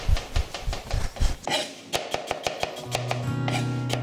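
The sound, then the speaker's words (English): Knife chopping peeled, cored and quartered fruit in a kitchen: soft scraping at first, then a quick run of many sharp, crisp taps on the board, followed by a steady low hum. “We're just going to peel this, so we're going to take the peel off, and then we're going to cut this in half, and then into quarters, and then again, just take out that core bit in the middle, and then just chop.”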